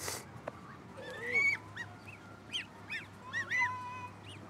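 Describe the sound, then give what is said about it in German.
Domestic farm geese honk in a rough, brassy chorus, with several calls rising and overlapping over a steady background hiss. “Meine Gänse sind ja sowieso manchmal so ein bisschen ruppig. Das sind ja auch die besseren Wachhunde.”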